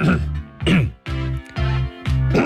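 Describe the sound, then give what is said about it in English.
Throat clearing, repeated several times in quick succession: gruff, low, voiced rasps, each lasting under half a second, loud and with no speech between them. “Like that. See? It's called a throat clearance.”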